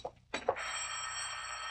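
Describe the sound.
A telephone rings: a couple of dull thumps are followed by a bright, sustained ringing tone that continues steadily to the end.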